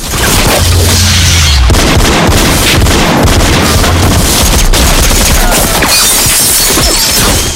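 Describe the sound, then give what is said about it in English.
A loud gunfire sound effect from a handgun shootout in an action scene: a relentless, dense barrage of sharp shots and heavy booms rattles on continuously for several seconds, without pause. “Now the other man opens fire. Barb somersaults over the tipped-up table and takes cover, returning fire with her handgun.”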